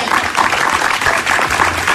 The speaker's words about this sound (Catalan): Estic al·lucinat de la gentada que sou a les 3 de la tarda. Aplaudiu-vos.